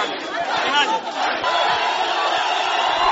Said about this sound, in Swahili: Na mshango na nderemo zikihinikiza katika uwanja wa kimataifa wa Mwalimu Julius Nyerere wakati Tundu Lissu amewasili kutoka ughaibuni